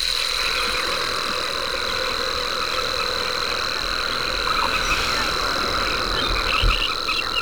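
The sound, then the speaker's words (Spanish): A rare singing cricket known as the silver rattle, from arid, salty lands, stridulates in one continuous thin high-pitched trill. The steady trill sits over a dense, rough background hum. “un grillo que canta, es muy escaso, que canta estridula. En las tierras más áridas, salobres, blancas de sal, y que lleva paradójicamente el nombre de cascabel de plata.”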